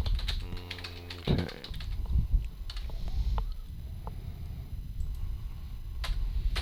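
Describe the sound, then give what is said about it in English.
Typing on a computer keyboard, with many quick, irregular key clicks in uneven bursts throughout, over a low rumbling background and no talking. “I think I typed all the things you said.”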